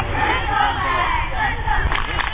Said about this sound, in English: The crowd is swelling beside him, and so does their chant.